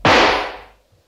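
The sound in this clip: One loud, sharp rifle shot cracks out, a sudden broad blast that decays quickly over well under a second into near silence.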